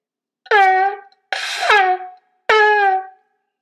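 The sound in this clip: A shofar sounds shevarim, three blasts: three short, brassy horn tones separated by brief gaps, each ending with a sharp upward break in pitch, the middle one rougher and more breathy.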